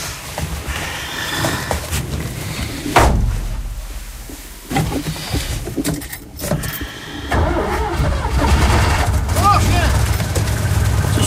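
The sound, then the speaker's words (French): A car engine started by turning the key after the car had been sitting in the sun: a burst as it fires, then a steady running engine under people talking. “Ça va, elle a démarré ? Ah ben, elle était restée au soleil, en tournant la clé.”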